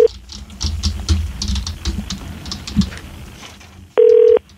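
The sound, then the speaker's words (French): An outgoing telephone call is dialed: a run of quick tapping key presses, then after a brief pause a single loud, steady ringing tone. “OK, donc on l'appelle, l'appelle là.”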